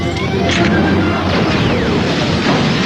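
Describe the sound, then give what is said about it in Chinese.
Grenade explosions in a battle scene from a Chinese-language radio drama: a dense, loud, continuous wash of crashing bursts and smashes, with a few sharper hits standing out from the roar throughout. “榴弹， 榴弹，”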